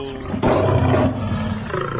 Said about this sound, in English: My god, that tiger's mauling you.